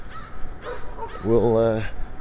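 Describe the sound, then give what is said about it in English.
Crows cawing: three short, harsh caws followed by one longer, drawn-out caw, fairly loud against a quiet background. “And the crows have shifted their roosting habits.”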